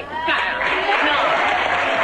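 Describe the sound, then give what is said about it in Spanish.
Applause from a large group of adults: a dense, steady clatter of many hands that starts abruptly and stays loud throughout, with crowd voices mixed in. “Y el aplauso, vale, el aplauso de un montón de adultos.”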